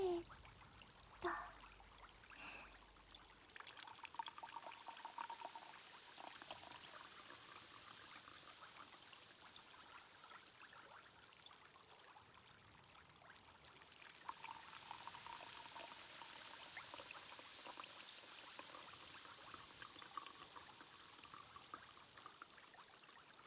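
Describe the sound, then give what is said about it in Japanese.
Liquid pours into a glass in a long, continuous stream. A soft splashing trickle and hiss run steadily throughout, alone, with a slight shift in tone partway through. “じゃあグラスに注いで、”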